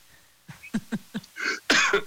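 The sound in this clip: A person coughs in a fit of a few quick, throaty bursts that build into two louder, harsher coughs.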